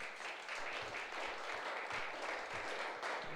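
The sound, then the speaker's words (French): A church audience claps for the word of God during a service. The applause is faint but continuous, a soft, even wash of many hands. “Est-ce qu'on peut acclamer can la you parole clap for the word of God?”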